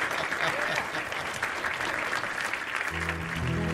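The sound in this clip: Audience applause welcomes a performer at a brew house: dense, steady clapping fills the whole stretch, and a sustained musical tone joins in near the end.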